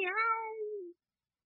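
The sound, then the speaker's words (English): A cat gives a single long meow lasting about a second, a clear tonal call that holds steady and then dips slightly in pitch before stopping abruptly, with no talk around it. “One big cat and two small kittens.”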